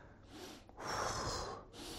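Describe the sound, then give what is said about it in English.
A voice imitates a deep breath with airy, rushing sounds. A softer stretch comes first, then a longer, louder breath in the middle and a brief softer tail, with no words spoken. “The monad is so powerful that when he breathes,”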